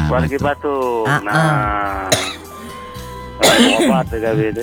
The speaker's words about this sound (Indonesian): mak ini hari lagi batuk.